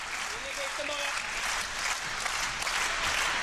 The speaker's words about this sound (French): en faveur du Suédois, acclamé par le public de la Malmö Arena.